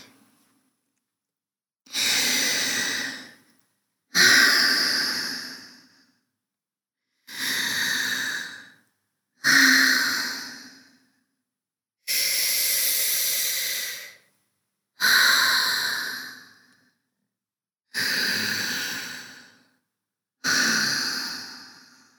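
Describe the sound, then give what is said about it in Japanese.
Slow, deep breathing: eight long, airy breaths at an even, unhurried pace, each a loud breathy hiss lasting a second or two and separated by near-silent pauses. “呼吸を整えて、ゆっくり深呼吸して。”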